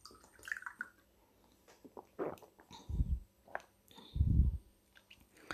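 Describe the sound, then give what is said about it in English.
A person gulping down water makes quiet, wet swallowing sounds. Two deeper, fuller gulps stand out among faint clicks and small liquid noises, with no talk. “So while I'm gulping down some water,”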